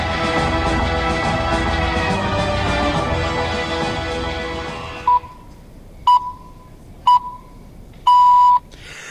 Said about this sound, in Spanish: Este pitido me va a callar ahora